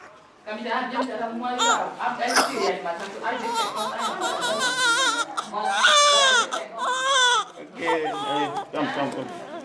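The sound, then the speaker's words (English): A newborn baby boy cries after a feet-first birth and nearly three minutes of silence, giving loud, repeated wavering wails with short gasps between them that continue throughout. “This little baby has really taken its time. Oh, that's such a satisfying sound.”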